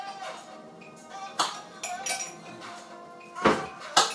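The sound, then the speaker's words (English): Crockery and a spoon clink as a cup is taken out, giving a few sharp, bright clinks and knocks at uneven intervals over a faint background. No talk is heard. “need a cup to put the spoon in, so I'm going to put it down on the side. You have to keep stirring it. Let's get a cup out.”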